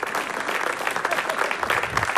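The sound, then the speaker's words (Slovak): Applause at an awards ceremony for the winners of the audience award: dense, lively clapping from a crowd, with individual sharp claps standing out in an uneven rhythm. “Zaslúžený potlesk ešte raz pre víťazov ceny verejnosti.”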